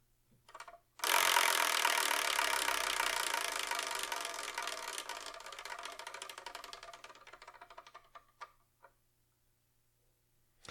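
A somewhat loose prize wheel spinning: a sudden burst of rapid ticking that runs steadily for several seconds, then slowly fades and thins out into a few isolated clicks as the wheel comes to rest.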